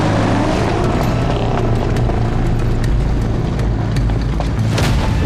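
A car roars as it drives off in pursuit of another vehicle, with a loud, steady low engine rumble and a few sharp knocks over it.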